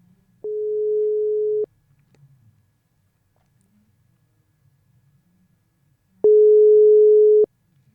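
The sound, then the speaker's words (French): Telephone ringback tone while placing a call to a delegation: two long, steady, identical beeps, each lasting just over a second, separated by several seconds of near silence. “Donc, on essaye d'appeler la délégation luxembourgeoise.”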